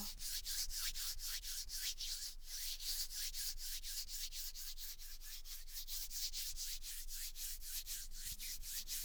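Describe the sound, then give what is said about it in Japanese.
Both hands rubbing together close to the ear, making quiet, dry swishing strokes. Many quick, even back-and-forth rubs repeat in a steady rhythm throughout. “耳元で両手をこすり合わせる音。”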